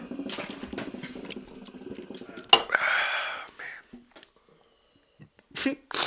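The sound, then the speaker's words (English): Water bubbling in a hookah as it is smoked: a short burst of gurgling in the middle, set between stretches of people talking. “I'm smoking motherfucking hookah right now.”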